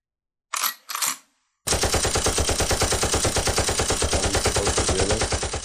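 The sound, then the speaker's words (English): Machine gun sound effect: two short bursts of fire, a brief pause, then a long, unbroken stream of rapid, evenly spaced shots that stays loud throughout. “Here comes the machine gun noise. It's going now.”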